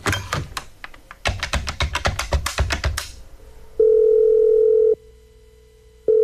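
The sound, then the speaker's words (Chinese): A telephone rings unanswered on the other end of a call: a burst of rapid clattering clicks gives way to a steady, loud ringback tone lasting about a second, a pause, then the tone starting again. “蓝青那头却再也没人接听电话了。”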